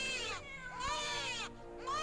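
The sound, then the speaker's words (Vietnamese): A newborn baby crying mixed with cat meowing in a hospital, a few high, wavering wails with sweeping pitch, each separated by brief pauses. “Đến lúc tập trung tinh thần lại, nghe kỹ thì lại loáng thoáng như tiếng trẻ sơ sinh khóc.”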